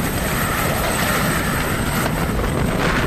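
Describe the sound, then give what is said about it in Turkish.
An airplane flies overhead with a steady, loud, broad roar of engine and rushing air that continues evenly throughout, with no other sounds standing out. “Oo, uçak. Uçak gidiyor. Uçağı götürüyor.”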